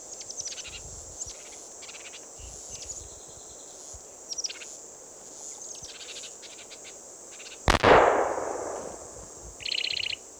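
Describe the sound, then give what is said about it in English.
A single sharp gunshot from a hunting gun cracks out loudly partway through and leaves a long fading tail. Insects chirp in short high bursts before and after it. “That was Ned's gun going off.”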